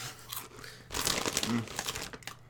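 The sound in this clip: Snacks being eaten make crisp crinkling of packaging mixed with crunchy chewing, busy and fairly loud throughout, with a brief murmur of voices.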